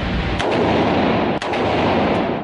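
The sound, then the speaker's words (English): A semi-automatic gun fires at a shooting range, giving three sharp cracks spaced about a second apart. The shots stand out over a loud, steady wash of background noise. “they invited me to go to the gun range with them for what they called range night. This is semi. Okay. That means semi-automatic. Okay. One shot for one trigger yeah.”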